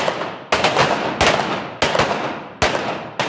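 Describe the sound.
Pistol shots ring out in duel shooting training at a range, where the gun stays raised between shots and the target is switched. Five sharp, loud reports are spaced roughly evenly, and each one trails off in a short decaying tail.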